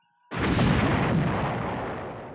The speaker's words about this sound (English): The space station exploded before them.